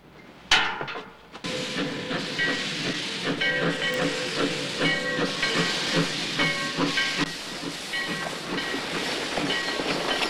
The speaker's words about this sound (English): a train pulls into the town station, its funnel emitting plumes of smoke.